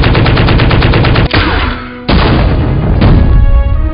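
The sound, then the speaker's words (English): An enemy turret blowing up in a video game amid intense combat: loud, continuous rattling machine-gun fire broken by a few heavy, booming blasts. “Enemy turret destroyed.”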